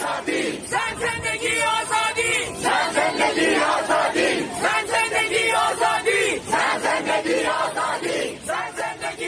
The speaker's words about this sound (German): Woman, Life Freedom, also Frauen leben Freiheit. Das sind die Worte der iranischen Frauen, die sie immer wieder rufen seit 49 Tagen.